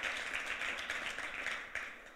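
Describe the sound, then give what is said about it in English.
A church audience claps in thanks, a dense, steady patter of applause that eases slightly toward the end. “Why don't we just clap for Jesus for a minute there? Just say thank you to him.”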